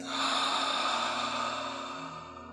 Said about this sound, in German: Lass uns langsam wieder ankommen, gemeinsam einen tiefen Atemzug nehmen. Und loslassen.